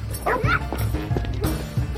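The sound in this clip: A dog barks and yips in a few short bursts, with a voice heard alongside the barking.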